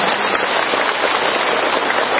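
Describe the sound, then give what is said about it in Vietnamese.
Applause from an audience honoring a teacher at a gathering before a dharma talk. The clapping is dense and hiss-like, holding a continuous, even loudness for the entire short clip. “Một tràng pháo tay nữa cho thầy các bạn chúng ta.”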